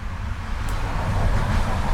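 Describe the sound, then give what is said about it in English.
Loud trucks passing by make a steady, heavy low rumble of road noise that swells slightly toward the end. “listen how loud those trucks are when they go by.”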